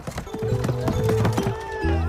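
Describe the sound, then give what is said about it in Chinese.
Horse-drawn carriage galloping past through a market: quick, clattering clip-clop hoofbeats run throughout, mixed with other tonal sounds. “突然一辆马车疾驰而过，扬尘拂面。”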